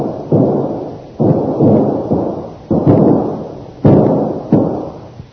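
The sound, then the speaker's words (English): Two shooters exchange gunfire in a series of loud, sharp, booming blasts with long decaying tails. The shots come at irregular intervals, with no voices. “As Lynn breaks away from her captor, both the savage and Tolu start shooting at each other”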